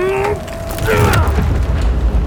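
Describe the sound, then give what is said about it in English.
Boards and screws are wrenched loose from a basement door. A strained creaking squeal leads into cracking and low, rumbling thuds. “Now, Alex, open the basement door! The screws are coming out! Here come the boards! One more!”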